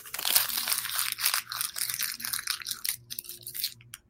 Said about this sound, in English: receipt. Any kind of receipt.